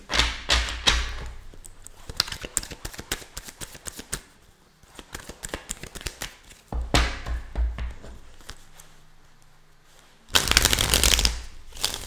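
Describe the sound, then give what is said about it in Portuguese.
Tarot cards being shuffled by hand. Several bursts of rapid, papery riffling and tapping are separated by quieter gaps, ending in a loud, dense burst of shuffling. “Já embaralhei, mas eu tô embaralhando de novo. Embaralhei, mas sei lá quantas vezes se der.”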